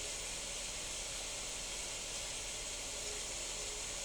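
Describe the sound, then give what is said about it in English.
Ghee bubbling in a pan over medium-low heat makes a soft, steady sizzling hiss. It stays even and unbroken for the whole stretch, with no talk over it. “We sit and bask in the sound. The ghee is bubbling.”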